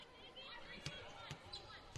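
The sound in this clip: Basketball bouncing at the free throw line during a BYU vs Nevada college game: three separate dull thuds at a slow, steady pace, faint beneath a voice talking.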